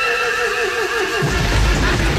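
A horse gives a long, shrill whinny lasting about a second, then a low, heavy rumbling noise takes over to the end.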